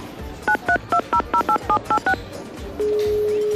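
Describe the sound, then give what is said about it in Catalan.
Touch-tone dialing of a telephone number: nine quick beeps in an even rhythm, followed by a steady, continuous line tone that holds to the end. “Espera, te'l truco.”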